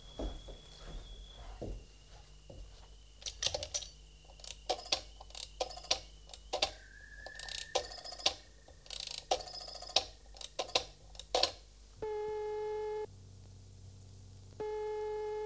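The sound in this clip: A telephone used to place a call: a busy run of irregular clicks and short tones like dialing, then a steady buzzing tone that sounds in two long bursts.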